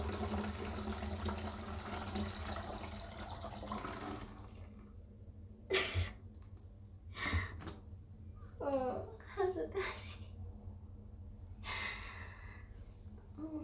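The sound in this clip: Urine streams into a plastic PET bottle with a steady hissing pour for about four seconds. Brief breathy, snorting vocal sounds and faint trickles follow.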